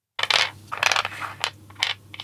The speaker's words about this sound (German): das nächste Würfelgeräusch hier